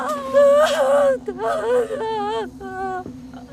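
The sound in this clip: A baby cries and whimpers while being soothed; the baby has not been eating well for the past few days. High, wavering wails come in a few bursts, with a steady low hum beneath.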